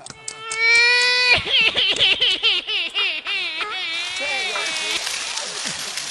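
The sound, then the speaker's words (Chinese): A performer's voice imitates a baby crying itself hoarse in a comic sketch, starting with a long high wail, then breaking into many choppy, wavering sobs that ease into a softer, trembling tone. “这小孩嗓子都哭哑了，别哭。”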